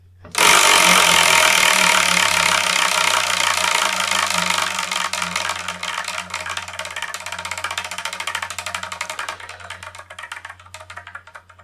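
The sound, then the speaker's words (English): Spinning prize wheel picking the next manga to review, giving off a rapid, loud clicking rattle whose ticks gradually thin out and slow over about eleven seconds above a low steady hum. “So let's spin and see what we're going to review in the next episode.”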